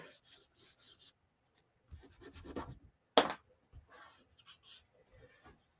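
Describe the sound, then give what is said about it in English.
Scratchy rubbing strokes of a drawing tool worked on its side and edge: clusters of short, faint scrapes separated by pauses, with one sharper, louder stroke midway. “And I'm doing a combination. I'm doing some with the side. I'm also drawing with the edge. It's going to get really messy really fast.”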